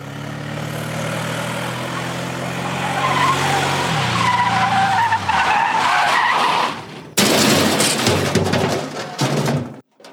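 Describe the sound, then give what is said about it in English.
A car skids off the road with tires squealing over a loud, sustained engine roar. The pitch steps down midway, and an abrupt burst of harsh noise follows near the end. “Oh my God, we're going off the road! Here, let me take the wheel.”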